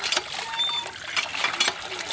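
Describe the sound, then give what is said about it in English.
Water gushes and splashes from a village hand pump in an irregular, fairly faint flow of small splashes and spatters. “In the village where Shivde lives, they get their water from these kind of hand pumps outside.”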